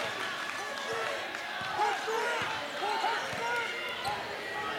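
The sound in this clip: A basketball is dribbled with the right hand across the timeline during a game. Many repeated bounces come at an even pace under continuous voices.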